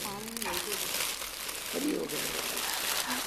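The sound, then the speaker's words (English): Soft crinkling of wrapping as flowers are unwrapped. Faint rustles run beneath people talking quietly. “I think Daddy wants to get the flowers unwrapped.”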